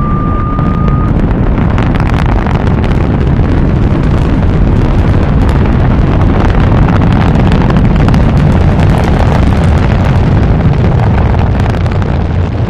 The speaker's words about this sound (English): Countdown for blastoff. X minus 5. Minus 4. Minus 3. Minus 2. X minus 1. Fire.